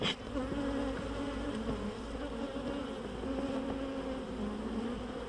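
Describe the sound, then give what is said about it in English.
Thousands of honeybees buzz around an open hive in a dense, continuous drone. The low hum holds steady and fairly loud throughout, with no talk over it. “And there are literally thousands of bees around us.”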